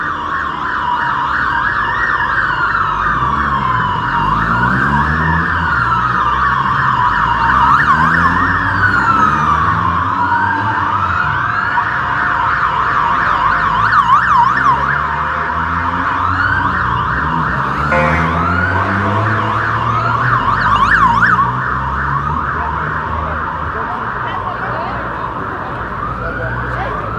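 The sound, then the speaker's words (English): Sirens of six police motorcycles wail together in overlapping sweeping tones that rise and fall out of step. The sound is loud and continuous for the whole stretch, with no break. “It was six police bikes, and that was it.”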